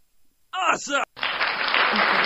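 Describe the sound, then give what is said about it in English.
Audience applause starts right after a short burst of speech, a dense, steady clapping that fills the rest of the moment without fading. “I love animation, so let's give it an applause.”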